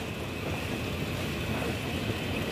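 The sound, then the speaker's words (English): A steam train passing through the small platform at Erdington, a steady, even rumble and rolling rattle of the engine and carriages that stays low and constant throughout. “Spectators on the tiny platform at Erdington Holt wave to the passing train.”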